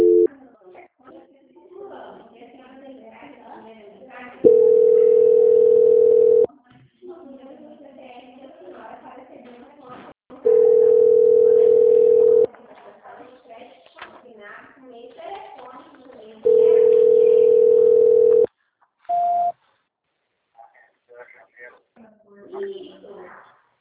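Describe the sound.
Telephone tones during a call transfer: three long, steady beeps of about two seconds each, several seconds apart, with murmuring voices between them and a short higher beep near the end.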